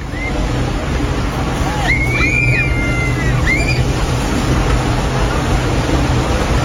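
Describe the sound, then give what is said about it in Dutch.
A ship's stern wave washes onto a bathing beach in Vlissingen as a steady, loud rush of surf, with a few faint, high screams from people rising above the water noise midway through. “Gillende mensen op het badstrand in Vlissingen. Was weer zover dat een schip voorbij voer met een hekgolf die voor gedoe zorgde.”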